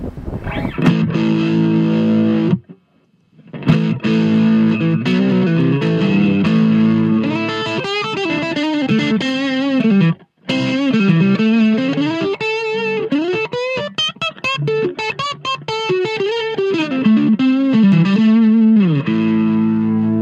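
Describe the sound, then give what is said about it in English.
Distorted electric guitar from a Fender Stratocaster plays melodic lead lines with sustained, bending notes and a thick, effected tone. It is loud and steady and stops briefly twice, with no voices. “I'm just a Fender guy, you know, Strat guy. Well, can we hear this Strat? Yeah, absolutely.”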